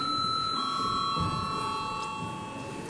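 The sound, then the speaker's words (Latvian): A continuous electric bell rings in a parliament chamber to summon deputies for a quorum check. It holds a steady, sustained tonal ring for the whole stretch with no pauses and no talk. “Lūdzu, zvanu.”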